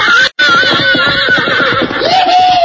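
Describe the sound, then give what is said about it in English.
A fiery red stallion whinnies as it is turned loose with a saddle on: a loud, sustained, quavering neigh with a brief break near the start, then a rising, shrill cry near the end. “was watching two boys and two cowhands who'd finally put a saddle on a fiery red stallion.”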